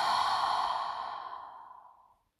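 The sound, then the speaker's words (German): A single deep breath out through the mouth during a guided breathing exercise. It is a long, airy exhale that starts loud and slowly fades away to silence. “Atme tief mit der Nase ein und mit dem Mund aus.”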